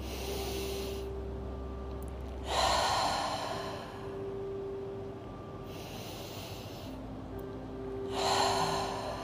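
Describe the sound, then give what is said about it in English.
Slow, deep belly breaths during a guided meditation, drawn in through the nose and pushed out through the mouth. Soft, airy whooshes rise and fade in turn over a low steady hum, two of the exhales fuller and louder. “Inhaling deeply through the nose and exhaling completely out of your mouth.”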